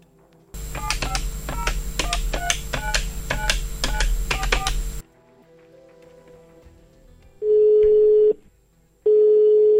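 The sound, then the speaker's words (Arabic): A telephone call being dialed: a rapid series of keypad tones over a low steady hum, then a short quiet gap and two long, steady ringing tones. “رح نتصل بيرزقو ونعرف منه أكثر.”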